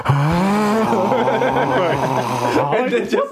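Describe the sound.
A voice imitates a dying gasp with a drawn-out, strained, raspy groan that is loud and sustained for about three seconds. It begins with a slight upward bend in pitch and breaks into rougher gasping toward the end.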